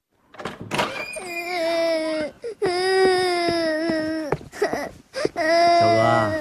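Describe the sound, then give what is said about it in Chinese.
A child cries in drawn-out, harmonic sobbing wails, several long loud bursts separated by brief catches of breath, with no talk over them. “别哭了，别哭了啊！来来来，爸爸给你擦擦眼泪。”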